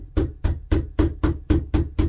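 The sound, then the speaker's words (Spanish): Knocking on a door: eight sharp, evenly spaced knocks in a steady rhythm, each a dull thud, with silence between blows. “empezaron a golpear otra vez.”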